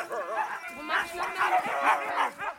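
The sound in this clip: Several dogs in a truck bark and whine during a dog-hiking outing with children. Short, high yips and whimpers come in a lively, overlapping string.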